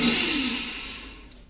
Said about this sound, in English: Step 5. Deep breath in.